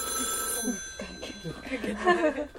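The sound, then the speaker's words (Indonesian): A phone ringtone plays as steady, high tonal notes that run throughout beneath people talking, with the voices louder than the tone. “biasa ringtone”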